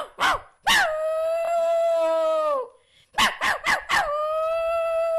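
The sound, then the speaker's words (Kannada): A voice imitates a dog: a few short, sharp yelping barks, each opening into a long howl that slides downward in pitch, then a quick run of barks ending in another drawn-out howl. “ನಾಯಿಯ ಧ್ವನಿಯನ್ನು ಕೇಳಿಸುತ್ತೇನೆ.”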